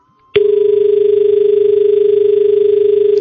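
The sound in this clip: A steady telephone call tone begins abruptly after a short click and holds at one unbroken pitch, loud and even, through to the end.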